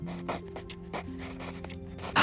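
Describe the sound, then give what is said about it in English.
A pen scratches on paper as someone takes notes, a faint run of short, irregular strokes with a low steady hum underneath. “Just gonna pretend you're not writing things down.”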